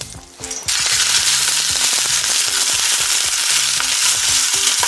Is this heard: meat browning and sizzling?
yes